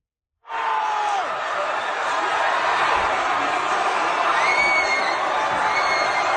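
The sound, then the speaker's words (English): Croatian fans in Vancouver celebrate Croatia beating Brazil at the 2022 World Cup. A sustained, loud crowd roar of cheering and shouting begins abruptly after a short silence and continues without a break. “What you are hearing is the sound of Croatian fans celebrating here in Vancouver when Croatia beat Brazil at the 2022 World Cup.”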